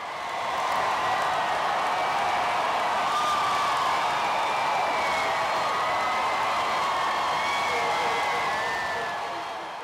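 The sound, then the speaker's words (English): Crowd of some 10,000 people outside a statehouse as a Confederate battle flag is lowered: a loud, sustained roar of cheering and applause that stays dense and even throughout, with no clear breaks. “this was the sound of some 10,000 people outside of the statehouse as the Confederate battle flag was taken down days after the horrific shooting.”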